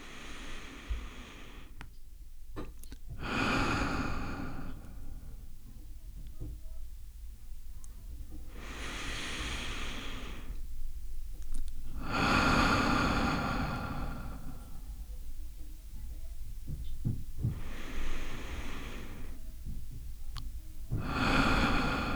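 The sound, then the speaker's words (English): Several slow, deliberate breaths taken in through the nose and out through the mouth, with a longer exhale. Each soft, airy breath swells and fades, separated by quiet pauses. “breaths in through the nose and out through the mouth with the exhale longer than the inhale.”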